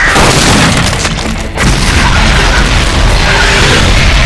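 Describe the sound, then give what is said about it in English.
A phosphorus grenade explodes in a loud, sustained booming roar of dense noise. It lasts about four seconds with a brief dip partway through, and no voices. “Good throw, Detroit! Phosphorus grenades.”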